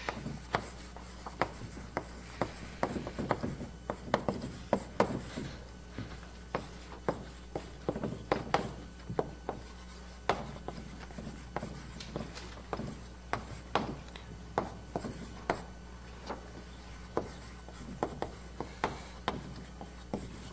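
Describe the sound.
A lecturer writes an algorithm on a board, making faint scratchy strokes in many short, irregular bursts, with no talking.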